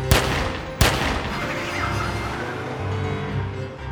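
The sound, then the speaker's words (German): Two sharp, loud gunshots from a handgun fired outdoors at night during a police confrontation, the second coming under a second after the first, each a sudden crack that gives way to a lingering low rumble of background noise. “Scheiße, der hat eine Waffe! Deckung!”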